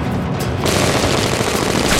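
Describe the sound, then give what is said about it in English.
Machine-gun fire in a shootout with bullets striking the ground, forming a dense, loud, unbroken rattling roar that lasts about two seconds with no separate shots standing out. “Markham's goons open fire on Chris, who leaps and stumbles. Bullets whiz past him, ricocheting off the ground.”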